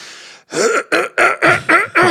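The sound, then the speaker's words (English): A voice imitates a man forcefully clearing his throat: a rapid series of harsh, rasping vocal bursts, loud and evenly spaced, each one gravelly and strained. “like just really, really forcefully cleared his throat”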